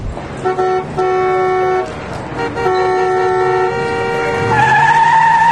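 Car horns honk in traffic in several long, loud, steady blasts. The blasts overlap and follow one another with short breaks, growing louder toward the end.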